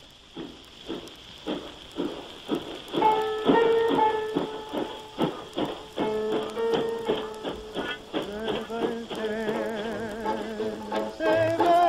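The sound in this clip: Rhythmic urban train chuffing opens a tango recording about a departing train. Steady, evenly spaced beats carry on as sustained instrumental notes enter and build over them.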